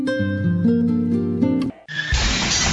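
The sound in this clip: Glass shattering in a windshield and auto-glass replacement advert: a brief tonal phrase, then a sudden, loud crash of breaking glass that sprays bright, noisy debris to the end.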